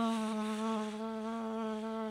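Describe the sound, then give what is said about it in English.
A human voice imitates a mosquito with a continuous, nasal buzzing whine. The tone is steady, rich in harmonics and wavers only slightly, held alone for about two seconds. “I'm like, oh my God, there's a mosquito in here. It's going to bug me all night.”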